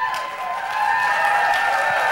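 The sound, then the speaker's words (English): An audience applauding someone who has just been introduced. The clapping is steady and grows a little louder after a moment, then holds. “Stand up. Give her a clap.”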